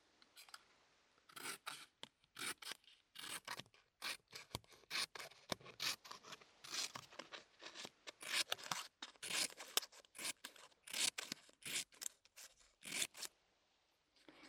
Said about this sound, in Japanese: 紙を切る音だよ。